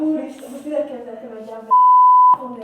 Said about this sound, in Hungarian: Jaj, ez különösen fáj, hogy olyan halk a hang, de közben a sípolás orbitális hangos.